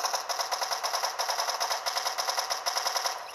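Rapid automatic gunfire in the video game Fortnite, a loud, steady stream of sharp shots fired in quick, even succession for the whole stretch, with no voices over it.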